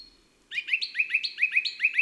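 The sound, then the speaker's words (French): A song thrush sings alongside a blue tit: bright, clear birdsong of short high notes repeated in quick succession, many phrases in a steady, lively rhythm after a brief quiet start. “D'abord, la grive musicienne, ici en compagnie d'une mésange bleue.”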